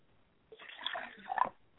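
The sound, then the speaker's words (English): Libation liquid poured out during a spiritual ceremony: a faint, brief splashing pour lasting about a second, with no voices. “And as I go over, I like to pour libation, first of all, to Oladulama Ray, who is the higher force in our life”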